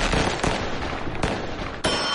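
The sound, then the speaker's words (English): Fireworks for a Fourth of July celebration crackle densely and loudly throughout, punctuated by a few sharp bangs that cut through the continuous popping. “Light up the sky this 4th of July with Crazy Joe's Fireworks.”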